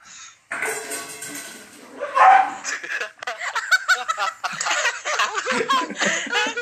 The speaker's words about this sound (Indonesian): gue udah nge-mute gue udah nge-mute dia aja nggak bisa nge-mute anjing gue nggak bersahabat banget anjing anjing gue emang anjing gue tuh emang begitu begitu